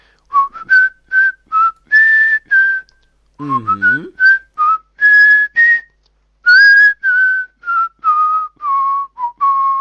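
A person whistles a melody from an animated detective series' background music as many short, clear, high notes with brief gaps. There is a longer pause midway, then the tune continues alone to the end.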